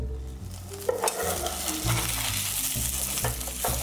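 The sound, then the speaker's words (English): Frying and scraping of a scallion mung bean pancake as a spatula slides under it in a hot pan, a steady sizzle with scattered scrapes and taps throughout, no talking. “Sliding my spatula underneath my pancake here.”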